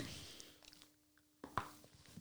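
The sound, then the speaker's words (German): Someone bites into a piece of 72 percent dark chocolate, two sharp cracks close together rising out of faint, quiet chewing. “wow, geknackt. Ich liebe es, wenn Schokolade knackt.”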